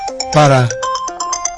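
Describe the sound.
A phone ringtone plays a short melodic run of bright tones during a broadcast, with a voice talking over it.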